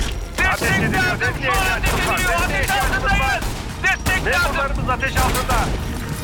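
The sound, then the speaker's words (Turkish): Gunfire in a tense shootout, with sharp bursts and cracks scattered through the stretch beneath loud overlapping voices and some mechanical clatter. “Ateş ediliyor. Ateş ediliyor. Desteğe ihtiyacımız var.”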